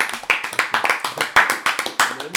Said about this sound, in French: Bravo Lucas, on applaudit